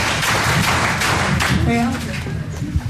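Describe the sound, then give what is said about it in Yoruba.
Applause after a Yoruba riddle is answered, a dense, continuous patter of many hands that lasts about two seconds and then falls away to quieter sounds. “Ẹyin ẹ pàtẹ́wọ́ fún mi.”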